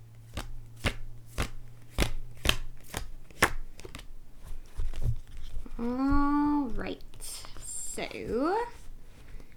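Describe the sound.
A deck of tarot cards being shuffled and handled, making a regular run of crisp taps and snaps, followed later by a person talking.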